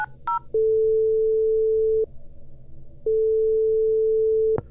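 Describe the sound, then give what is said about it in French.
Telephone ringback tone while placing a call: a couple of short higher beeps, then two long, steady mid-pitched tones separated by a pause, with no voices. “Pas de panique. Je reste zen et j'appelle Marianne Cambon.”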